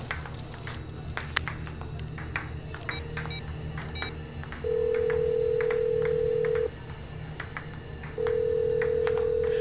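Telephone dialing followed by ringing: a few short keypad beeps, then two long, steady ringback tones separated by a pause, over a faint background hum.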